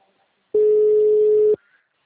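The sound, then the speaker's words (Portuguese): A telephone ringing tone as a recorded call is placed: one steady, pure, mid-pitched tone lasting about a second, loud and alone, with near silence before and after. “Vou fazer uma ligação gravada.”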